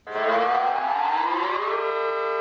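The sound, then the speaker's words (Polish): A civil defense alarm siren sounds at noon in Lublin, switched on after the city bugle call. Its loud wail climbs steadily in pitch, then levels off into a sustained tone. “W południe z balkonu lubelskiego ratusza odegrano hejnał miejski, po którym włączono syreny alarmowe.”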